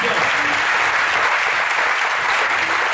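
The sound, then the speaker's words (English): Continuous applause from a crowd at a worship service, a dense, even wash of clapping that stays loud and steady throughout, with no pauses. “Come on, give me a hand. Thank you.”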